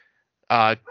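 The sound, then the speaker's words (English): A dog lets out one loud, short, tonal bark, followed closely by a softer sound. “Oh, hold on a second. My dog's being a jerk.”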